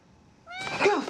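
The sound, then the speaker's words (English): A fluffy cat gives a brief cry, starting with a short rising tonal note and breaking into a rough, noisy burst that lasts about half a second. “A fluffy cat. How did you get in here?”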